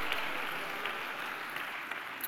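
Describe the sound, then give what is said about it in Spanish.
Church audience applauding during a worship service, a soft, steady wash of many hands clapping with no single voice standing out. “Dale un aplauso a Dios, amado hermano.”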